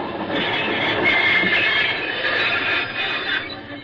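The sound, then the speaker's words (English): A locomotive runs along the rails at night, giving a steady, loud, broad rumbling roar with rattling clatter and a metallic squeal. It holds even throughout with no voices, easing slightly at the very end. “Would that be a locomotive you're driving?”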